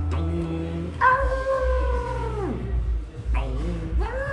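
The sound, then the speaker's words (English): A person's voice imitates a dog howling at the Angelus church bells, giving two long, wavering howls. The first is sustained and then slides down in pitch at its end, and the second rises into a new howl. “I used to have a dog that used to bark like to the Angelus bells. So like 6 o'clock every day, it'd be like,”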